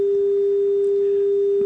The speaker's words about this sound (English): That's the sound of somebody hanging up, right?